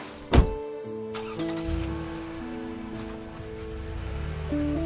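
A car drives past a man standing by the road, its steady low engine hum and tyre noise rolling on for several seconds at moderate level.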